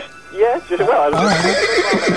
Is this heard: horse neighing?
yes